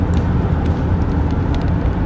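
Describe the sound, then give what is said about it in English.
Steady low engine rumble and road noise from a car while driving. The sound is continuous and even, with no talk over it. “As I'm driving, a few messages have come through, and I've just had to read that to see whether I needed to reply,”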